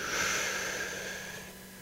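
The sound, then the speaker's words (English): A deep breath drawn in: one long, airy inhaled hiss, faint and steady, slowly fading over about two seconds. “On the count of three, I want you to take the deepest breath you can. Hold it in the basement of your lungs. Here we go. One, two, three. Breathe in.”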